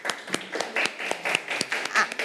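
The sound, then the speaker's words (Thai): Children in a classroom clapping for their classmates, many quick, fairly evenly spaced claps across the whole stretch. “ตัวแทนกลุ่มที่2ปรบมือให้เพื่อนค่ะ”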